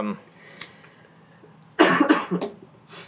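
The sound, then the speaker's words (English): Coughing: after a quiet stretch, a loud run of several harsh, raspy coughs bursts out, followed by a softer cough near the end. “I apologize for the coughing.”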